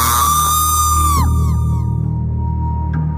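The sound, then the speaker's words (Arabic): A loud, shrill scream heard over a telephone, sustained and piercing, sliding down in pitch partway through, over a low steady hum. “صوت الصرخة دي، يعني أنا اللي واقف بعيد عن التليفون زي ما بيقولوا كده خرم وداني.”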